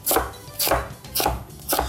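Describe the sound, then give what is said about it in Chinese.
A knife chops through a juicy, crisp vegetable for soup stock, four firm, evenly spaced cuts, each a short crunchy burst with a wet edge. “切下去的声音都是水。”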